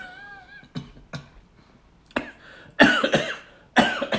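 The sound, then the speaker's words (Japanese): A person coughs in several short, sharp, breathy bursts separated by brief pauses. The later coughs are louder and rougher than the first ones. “ちょっと今咳をしてます、はい、 あ、咳です。”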